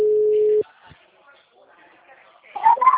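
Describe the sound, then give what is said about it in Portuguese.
A telephone tone after a dropped phone call: one loud, steady, single-pitch beep lasting just over half a second, then near silence until a voice begins at the very end. “perdão, caiu a ligação”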